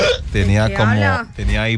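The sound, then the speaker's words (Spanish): Hiccups come in a few loud, voiced bursts, each a short throaty catch with a strong vocal tone, following one another in quick succession. “tenía hipo.”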